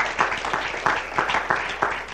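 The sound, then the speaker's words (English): A church audience claps hands during worship, producing a steady, evenly spaced rhythm of moderately loud claps with a dense wash of many hands between the beats. “Would you clap your hands unto the Lord and bless his holy name?”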